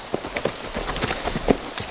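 Horse hooves clip-clop as a rider reins up: many soft, uneven thuds spaced irregularly over a steady hiss and a faint high tone.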